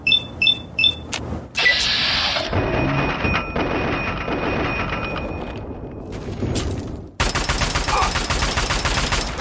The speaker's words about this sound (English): I love when they shoot my head off? Is that what you love? Oh, dear. Raiders.